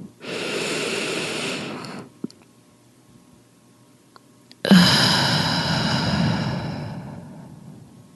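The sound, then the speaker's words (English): A slow, deep breath taken during a guided breathing exercise. One long, airy breath lasts about two seconds, then comes a quiet pause, followed by a second, longer breath that gradually fades away. “Now let's close it out with another deep breath.”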